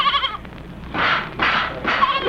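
A goat bleats a few times in quick succession, with loud, wavering, nasal cries over a low background rumble.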